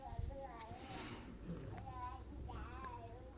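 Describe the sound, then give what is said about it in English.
A baby babbles softly in quiet, wavering vocal sounds that rise and fall over steady background noise. “what a wonderful sound as we hear that baby babbling”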